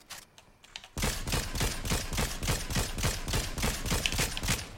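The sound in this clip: Gunfire in the video game Fortnite: after a quiet opening second, many rapid shots crack out in a dense, loud burst that runs to the end.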